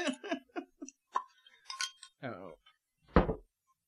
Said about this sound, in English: I'll take the lid off of some of these guys here so you can see what's in there.